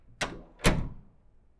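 Doors being opened: two dull wooden thunks, the second louder with a longer fading tail, heard alone.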